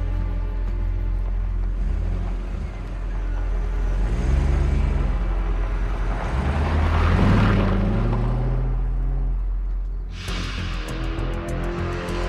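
A car drives away with a low engine rumble that swells through the middle and eases off toward the end.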